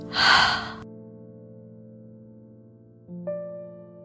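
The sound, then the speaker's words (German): A single deep, audible breath during a guided breathing exercise, airy and fairly loud, fades into a soft sustained musical drone that shifts to a new, brighter chord near the end. “Und ein letztes Mal tief einatmen und wieder ausatmen.”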